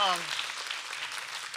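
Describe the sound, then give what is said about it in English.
A church audience claps hands on a call to give God a big hand: a dense, steady wash of clapping after a voice briefly at the very start. “Give God a big hand if you heard me today. Give God a big hand clap if you heard me today.”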